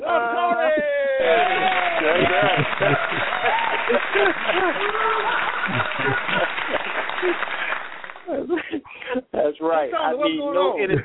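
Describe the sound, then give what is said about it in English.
An audience clapping after a performer is introduced, a thick wash of applause with voices shouting over it, thinning out toward the end as a single voice talks. “Ladies and gentlemen, stand up and clap.”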